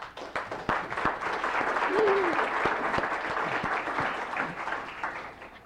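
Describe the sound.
Applause on the floor of a legislative session welcomes a guest, a former Fairbanks mayor and university regent, as sustained, even clapping from many hands for several seconds, with a brief voice partway through.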